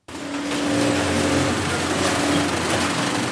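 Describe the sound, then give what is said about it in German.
Sewing machines in an Albanian factory stitch protective workwear, giving a steady, even mechanical whir and hum with a low tonal drone that holds throughout, without talk. “So klingt es, wenn Arbeitsschutzkleidung genäht und hergestellt wird, auch für den deutschen Markt.”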